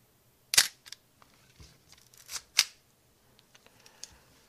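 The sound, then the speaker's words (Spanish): A Nikon FM2 manual film camera with film loaded fires its shutter: two sharp mechanical clacks about two seconds apart, with softer clicks and handling rustle between them, all fairly quiet. “Voy a romper una foto para que oigáis el obturador.”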